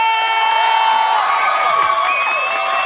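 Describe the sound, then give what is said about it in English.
Loud cheering and applause from a studio audience as a host walks onto a TV show set, a steady wall of crowd noise with clapping and raised voices throughout. “Monica is walking onto set to a thunderous applause.”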